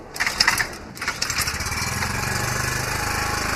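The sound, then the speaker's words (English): A petrol generator starts with a few uneven sputtering bursts, then settles into a steady, mid-pitched engine drone that runs on with a faint high whine above it. “And now it's time to power the generator. The bulbs in the room went bright as the generator came alive.”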